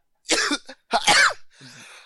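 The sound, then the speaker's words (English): A man coughs after laughing: a few harsh, throaty bursts in quick succession, the middle one loudest, ending on a softer, raspy cough. “I laughed. I started coughing.”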